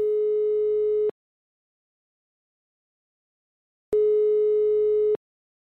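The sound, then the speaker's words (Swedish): Telephone ringback tones play while a call to a real estate agent goes through: two steady, single-pitched bursts, each lasting a bit over a second, separated by a long silent gap, with no voices. “jag tycker bara kul att ringa upp mäklaren så hör vi om han har försökt avråda från det här eller någonting. Det kan vara lite kul. Vi ser om han svarar.”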